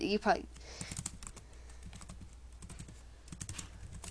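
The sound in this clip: Typing on a computer keyboard: a quick run of light, uneven clicks and taps at a low level, with a person talking over part of it.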